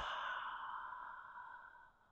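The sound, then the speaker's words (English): A deliberate exhale through an open mouth after a nasal inhale: a long, breathy, sigh-like rush of air, faint and alone, slowly fading over about two seconds. “Inhale through your nose. Open mouth, exhale,”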